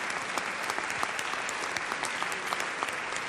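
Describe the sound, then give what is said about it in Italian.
An audience at the Sala Sinopoli, Parco della Musica in Rome, applauds pianist Leif Ove Andsnes at a chamber concert. Thick, sustained clapping stays level throughout, with faint individual claps flickering through the roar. “Ecco di nuovo Leif Ove Andsnes, prendere il suo applauso del pubblico romano.”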